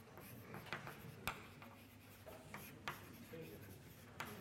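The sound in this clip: Faint, scratchy strokes of writing on a board during a mathematics lecture, with a few sharp taps and short scrapes spread through a quiet stretch.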